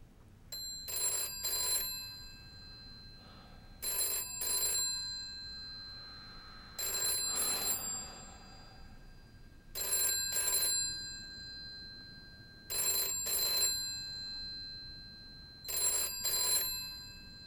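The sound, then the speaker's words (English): A telephone bell rings six times, each ring a quick double burst, at a steady pace of about one ring every three seconds. The rings are fairly quiet and sound alone, with no voices. “gets up from his seat and picks up the phone.”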